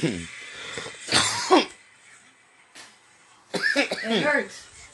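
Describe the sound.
Harsh coughing in two bouts, a short burst followed later by a longer, rattling fit with throat-clearing, loud against a quiet background.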